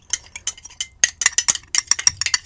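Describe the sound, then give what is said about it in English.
A spoon clinks against a glass while stirring a drink of Tang. Many bright, ringing taps come in quick, irregular bursts, fairly loud, with brief pauses between them. “All right, I got mine stirred. I hope it's stirred.”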